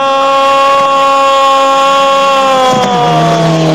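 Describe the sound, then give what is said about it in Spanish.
Racing car engine at full throttle on a curve section of a road race, a loud, steady, high-revving drone rich in harmonics that dips briefly in pitch near the end, with no voices. “Ese motor viene acelerando a fondo.”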